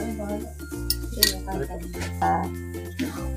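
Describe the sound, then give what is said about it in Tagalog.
A utensil clinks and scrapes against a pan as food is stirred until dry: a few sharp metallic clinks scattered over a steady, low background tone. “haluin hanggang sa tuyo.”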